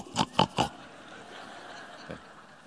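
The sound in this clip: A man voices wild-boar grunts into a microphone while hidden in bushes along a path: three quick, loud guttural grunts in a row, then a pause and one fainter grunt.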